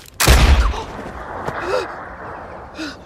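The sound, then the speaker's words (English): Gunshot from a gun fired at a maid during a shooting outing in a film scene: one loud, sharp blast with a deep boom near the start, then quieter background sounds. “Sarah has taken Abigail the maid out to go shooting, and she shoots a gun right at Abigail and then calmly goes on.”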